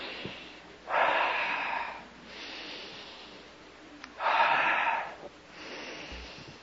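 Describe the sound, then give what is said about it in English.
Deep breathing: slow, loud, airy inhales, each followed by a softer, longer exhale, repeating in an even rhythm with no talk. “you wiggle around a little and take three deep breaths to get the oxygen there”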